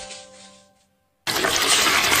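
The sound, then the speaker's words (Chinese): Boiling water poured into flour while making dough for Huangshan shaobing: a loud, steady rushing splash that starts abruptly after a brief silence and continues without break. “开水泡面，需快速搅动和面”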